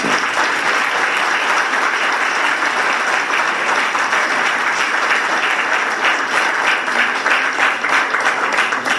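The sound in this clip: Loud, sustained applause from a crowd at a university event, many hands clapping in a dense, crackling stream with faint individual claps flickering through, steady for the whole nine seconds.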